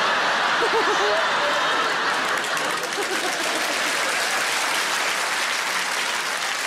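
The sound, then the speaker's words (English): An audience at a live stand-up comedy show claps: dense, steady applause that fills the whole stretch at an even level. “Yeah, you're all clapping.”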